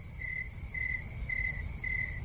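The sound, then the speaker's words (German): Crickets chirping in four evenly spaced high, bright trills, each lasting about a quarter second, over a low rumbling background. “Grillenzirpen.”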